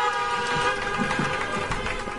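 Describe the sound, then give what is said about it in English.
Car horns honking at an outdoor stage event for an electric vehicle launch, overlapping into a continuous blare of steady tones with fainter low sounds beneath. “Is this in a drive-in or something? Or like a... It's like an outdoor stage. I can hear horns.”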